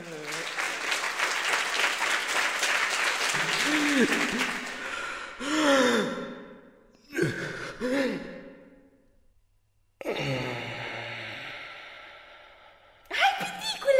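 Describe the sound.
Applause for a dwarf performing in a palace in a children's audio story: dense clapping for about five seconds, followed by several voiced sighs and gasps separated by brief silences.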